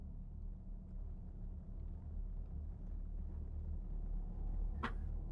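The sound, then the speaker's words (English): Rolling thunder rumbles low and steady under a darkening sky, a faint continuous roar with little change, and a single brief sharp crackle near the end. “the sky begins to turn black. Huh? You see, as a rolling thunder begins to loom in the skies above.”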